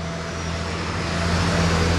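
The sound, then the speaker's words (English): Cars drive along a downtown street in Houston, a steady broad roar of traffic with a low hum that holds evenly and grows slightly louder toward the end. “Here in downtown, cars drive along Smith Street”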